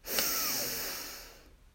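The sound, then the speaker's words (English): A single deep inhale drawn from the bottom of the belly during a guided breathing exercise: a soft, airy rush that swells quickly, then slowly tapers for over a second before fading out. “We begin by taking three very deep breaths from the bottom of our belly. We breathe in, we hold at the top”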